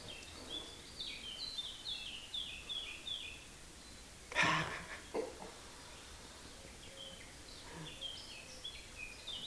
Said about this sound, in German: Sonne scheint, Vögel zwitschern.